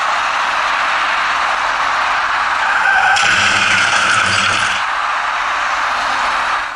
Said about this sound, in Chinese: 驾驶那辆深色小客的司机显然没有注意观察路面上的设施，由于对车身控制不力，造成深色小客撞上出口处的隔离带并骑了上去